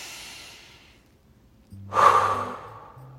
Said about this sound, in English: How's your breath? Okay, let's take a deep breath together.